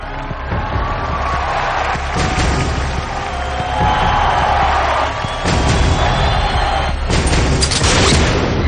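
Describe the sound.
Gunshot in a thriller film scene where a shooter on a balcony fires at a president's double at a podium, set in a loud, dense mix of booms and crashing noise, with a few sharp bursts standing out toward the end.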